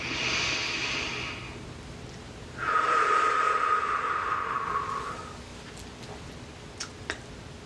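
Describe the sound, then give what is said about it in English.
A deep breath during a guided breathing exercise: a soft hissing inhale, a short pause, then a longer exhale through the nose with a faint whistling tone. A few small clicks follow in the quiet. “This is you. You are this. Another nice deep breath.”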